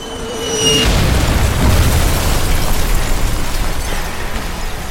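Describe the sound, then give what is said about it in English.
Explosions of nanobombs going off around a city: a brief high tonal whine gives way to a loud, sustained, low booming rumble that continues steadily to the end. “there are all of these nanobombs going off all around the city and around the rest of the world”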